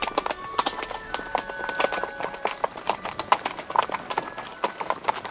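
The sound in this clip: Horses' hooves clip-clop on a steep, winding forest path under huge beech trees. Many sharp, uneven hoofbeats fall in a steady, continuous run.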